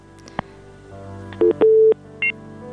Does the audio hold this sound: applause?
no